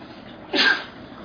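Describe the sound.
A single sharp sneeze from someone attending an Islamic jurisprudence lesson: one brief, loud, breathy burst that rises abruptly out of a faint steady hiss and quickly fades, with no talk over it.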